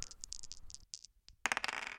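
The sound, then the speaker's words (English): A die rolled on a table during a board game gives a faint, rapid rattle of small clicks, a short lull, then a louder cluster of clattering taps near the end. “We roll dice and then talk about topics. And if we ever name a Kinesia game, we ding at it. That's all there is to know. So I'm going to roll the die.”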